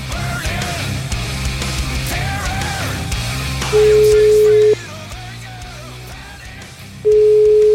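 Telephone line tone while calling a number: two long, steady, mid-pitched beeps separated by a pause, sounding loudly above a continuous noisy background.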